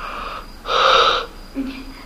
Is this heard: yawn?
yes